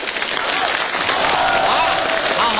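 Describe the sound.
An audience applauds at a crosstalk comedy show, many hands clapping in a dense, steady, fairly loud wash with a few voices calling out over it.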